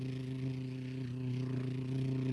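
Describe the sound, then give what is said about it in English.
A boat's trolling motor running, a faint, steady hum with even tonal layers that holds without a break. “I'll start up the troll motor. Hold on here. Yep. There we go. We got it running.”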